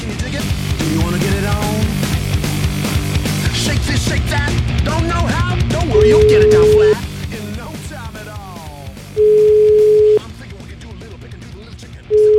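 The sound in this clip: A phone call is being placed, and three long steady ringback beeps of the same pitch repeat at even intervals. People talk underneath, with other sound continuing between the tones.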